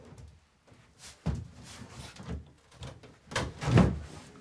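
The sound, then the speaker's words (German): A cupboard being tipped forward during cleaning work gives off faint, scattered bumps, creaks and scrapes, with a couple of slightly louder dull thuds among softer handling noises. “Wir müssen mal den Schrank ankippen. Von hinten oder was? Ja, so ein bisschen nach vorne, ja.”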